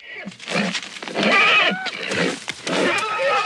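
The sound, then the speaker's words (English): A horse whinnies and snorts inside a stable while a person struggles with it, giving continuous, moderately loud, uneven calls with breathy bursts. “He sees Kent struggling with the horse and marches over to him.”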